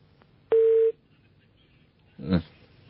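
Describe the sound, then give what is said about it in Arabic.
A phone call cuts off with one short, steady tone beep, followed after a pause of about a second and a half by a brief, noisy burst on the line. “قطع اتصال أستاذ مصطفى”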